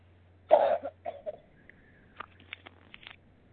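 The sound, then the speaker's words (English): A single short cough, fairly faint, followed by a few softer, brief throat noises and small clicks in otherwise quiet surroundings. “I thought you took the break for a cough and then were finishing up.”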